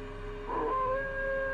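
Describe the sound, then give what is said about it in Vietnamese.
A pack of dogs howls in long, drawn-out tones, several wavering pitches overlapping in a faint, eerie chorus that lasts under two seconds. “bên tai của y nghe như cảm giác có cả một đàn chó đang thi nhau ngửa cổ lên hú”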